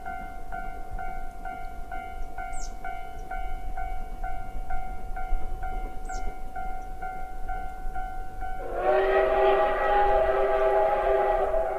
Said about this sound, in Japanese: それじゃあ釧路湿原駅に、到着する直前のちょっと山っぽい丘ですねを通過する冬の湿原号をちょっと聞いていただきたいと思います。